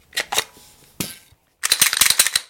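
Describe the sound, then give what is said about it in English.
Sharp mechanical clicks and metallic clatter from handling a black Glock 19 9mm semi-automatic pistol, coming in a few quick bursts, then a brief pause, then a denser rapid rattle of clicks. “This is a Glock 19. It is an odd black specimen of a gun.”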